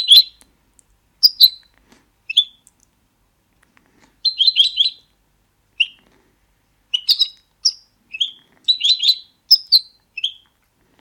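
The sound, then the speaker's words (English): Goldfinch song, many high, bright chirps and rapid twittering phrases in scattered bursts, some quick trills, standing alone against silence. “And the real goldfinch is like this. Sounds like this.”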